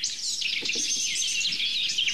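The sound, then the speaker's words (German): Blackcap subsong, a soft, continuous stream of rapid high twitters and chirps, with a blue tit and a blackbird calling in the background. It stays fairly faint and even throughout. “Grasmücke mit Blaumeise im Hintergrund und natürlich Amsel.”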